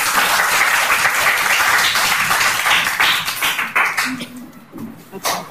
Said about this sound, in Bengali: সবাই ওদের জন্য হাততালি দাও একটা।